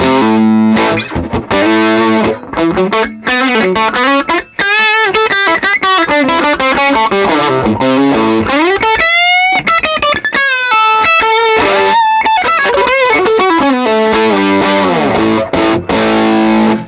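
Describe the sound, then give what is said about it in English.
A heavily distorted electric guitar with an ebony fretboard plays a loud, continuous stretch of chords and lead lines with a thick, saturated tone, with no talk over it. “They're just alive, and they're so sweet while also being able to really punch out. Sure. They do a unique thing that no other guitar does, man. Even with that ebony board,”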